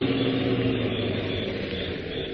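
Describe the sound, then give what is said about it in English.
A car's engine drones steadily as it drives back up a residential street toward a house, a continuous, fairly loud rumble that barely changes for the whole stretch, with no voices. “Well, where's the car now? It went on down the street. Wait, I think that's coming back.”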